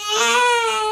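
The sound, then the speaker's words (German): A newborn baby cries in one loud, sustained, high-pitched wail with a strong tonal, slightly wavering quality, heard alone. “Das war mein persönliches Geräusch. Ja, mein erstes Kind ist zur Welt gekommen”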